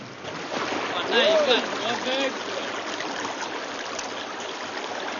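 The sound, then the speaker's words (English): Four men paddling a canoe along a river, with a steady wash of moving water and soft splashing that swells briefly, then settles into an even flow; voices are present beneath. “Now at a wider stretch of river, the four men paddle harder to keep pace.”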